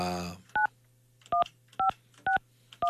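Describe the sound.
Telephone keypad tones as a number is dialed to call a listener during a call-in, a brief voice at the start, then five short evenly spaced dual-pitch beeps over a faint low hum.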